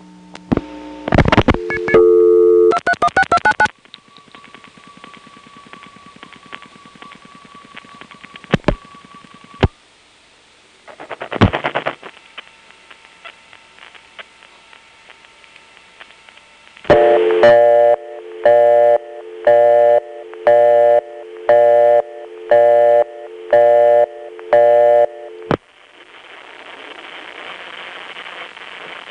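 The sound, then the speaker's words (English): A 1972-73 era PBX busy signal, reached through an ESS over a T-carrier trunk, follows earlier tones and clicks as a string of regular on-off beeps, then times out into a steady broad hiss of T-carrier trunk noise. “When the PBX busy signal times out, we can hear that T-carrier noise circa 1972-73.”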